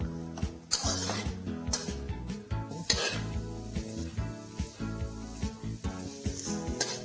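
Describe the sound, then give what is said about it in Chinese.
Onion frying in butter over high heat, sizzling steadily while a utensil stirs and scrapes through it in many quick, uneven strokes. “我们用大火炒来。好，我们奶油一点，重点是我一定要把这个洋葱炒到香”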